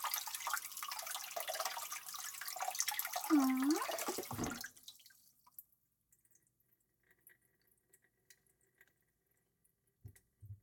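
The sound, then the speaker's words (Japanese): Water runs from a sink tap while something is washed under it, a steady, fairly loud splashing stream that is shut off after a few seconds. Near-silence follows, broken by a few small knocks. “あなたの分も必要だから、もう一つ洗うわね。”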